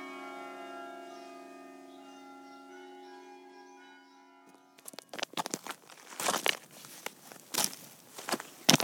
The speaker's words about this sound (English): we walk a little bit further on this route, which actually follows a bit of the Pennine Way, towards Epi Arkham.